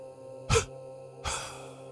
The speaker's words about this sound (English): One long breath in. Hold. Three death breaths out.